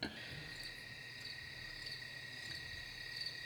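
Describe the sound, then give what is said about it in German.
Crickets chirp at night in a continuous, faint, high-pitched trill that holds steady throughout, with no voices. “Naturgeräusche der Grillen.”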